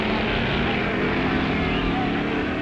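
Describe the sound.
A Gasser drag racing car's engine roars in a loud, continuous, rough drone that holds at a steady level throughout.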